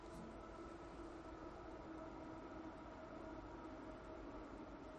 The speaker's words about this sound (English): I think I hear a train. I think I do hear a train. That's a train. That's definitely a train.